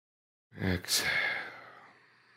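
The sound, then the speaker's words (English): One deep, audible breath during a guided breathing exercise. A short voiced onset leads into a long, breathy exhale that fades gradually to near silence. “Let's do it again. Two more times. Inhale. Exhale. Inhale.”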